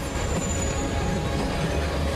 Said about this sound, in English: The train speeds along.